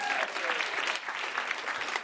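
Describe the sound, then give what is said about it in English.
Applause from a live audience at a talk, many hands clapping in a thick, even patter that stays steady throughout, with only a slight dip near the middle. “Applause.”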